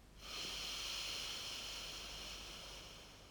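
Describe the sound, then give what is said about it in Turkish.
A long, slow exhale during a guided breathing exercise: a steady, breathy hiss rises quickly, holds for about three seconds and fades slightly toward the end, with no talking. “Nefes almıştım. Şimdi boşaltıyorum nefesimi. Al nefes. Ver nefes.”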